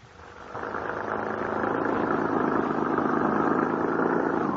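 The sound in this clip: Car engine droning while the car is driven along a road into remote country. The mid-pitched rumble swells over the first second, then holds steady and even, with no voices over it.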